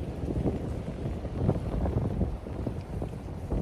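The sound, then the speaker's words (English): Chilly wind on a beach buffets the microphone in a continuous, gusty low rumble that rises and falls without a break. “A little chilly on the beach today. A little chilly”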